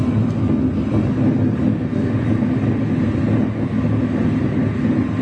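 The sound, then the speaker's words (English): A spinning object, spun up fast for a precession demonstration, gives off a loud, steady whirring rumble that holds evenly from start to finish without pauses. “is the speed with which this thing is spinning. Okay? Okay? So let me spin it up fast.”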